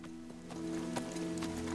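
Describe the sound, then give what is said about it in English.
Horse hooves clip-clop along a creek bed, a few spaced hoof strikes over a steady low tonal hum. “Rob follows the creek bed on his horse, a torch in his hand.”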